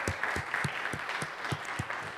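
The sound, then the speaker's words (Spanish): An audience applauds, its clapping falling into a steady, rhythmic beat of sharp claps that repeat at a quick, even pace over a soft bed of scattered hand claps. “Date un aplauso, yeah.”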